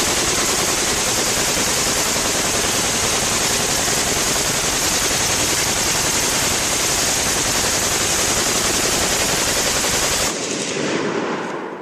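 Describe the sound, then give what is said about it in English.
Loud, continuous rapid gunfire from a sheriff shooting repeatedly at shadows, a dense unbroken stream of shots lasting about ten seconds before it cuts off abruptly. No talk is heard. “Well, I can't be shooting shadows, I'm a sheriff. I'm running out of bullets.”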